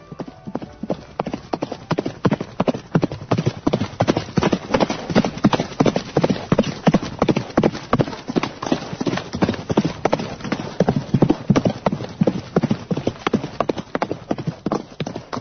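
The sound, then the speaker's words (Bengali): Hooves of horses ridden by soldiers clop in a steady, rhythmic stream, many loud beats following one another evenly throughout. “এটা হচ্ছে ঘোড়ার শব্দ। ঘোড়ায় করে সেনাবাহিনীর লোকজন আসছে, কংস রাজার সৈন্যরাজ।”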